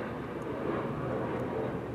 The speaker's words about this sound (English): This is Ontario International Airport, flying over the senior citizen apartments right on the south side of my person. Repeatedly.